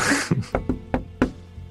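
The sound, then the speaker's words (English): Knuckles knocking on the door of a dark building: several sharp, hollow raps in an uneven rhythm, the last one fainter, with no voices over them. “let me go knock on the door”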